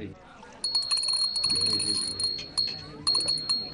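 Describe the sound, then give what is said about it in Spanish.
A small bell rings with bright, high tinkling strikes that recur a few times, sounding over voices. “Cada vez que suena una campanita... Quiere decir que un ángel consiguió sus alas.”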